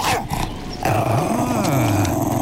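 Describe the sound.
A dog growling loudly in a low, continuous snarl whose pitch wavers up and down, over dense background sound.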